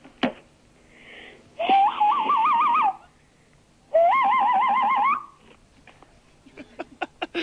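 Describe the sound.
A man imitates bird calls with two long warbling, whistle-like phrases of wavering pitch, separated by a short pause. A few sharp clicks follow at the end.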